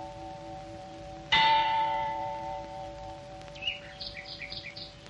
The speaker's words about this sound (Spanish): Una monja con un tocado de largos picos tañe una campana de aviso.